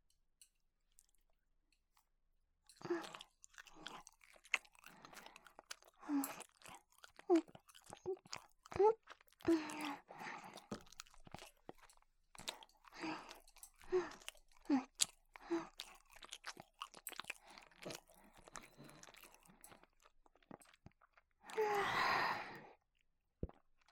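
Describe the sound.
Close, moist chewing of a sweet homemade food, with many soft crunches and wet smacks in an irregular rhythm. Quiet gaps fall between bites, and a longer breathy sound comes near the end.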